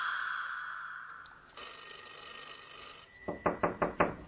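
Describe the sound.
A telephone rings with four quick, bright bell-like bursts in a fast rhythm near the end, after a stretch of steady electronic tones and low hum.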